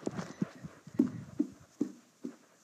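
Footsteps of a person walking up steps outdoors, faint thuds landing in an even, unhurried rhythm, several footfalls in a row with soft scuffing between them and no talking.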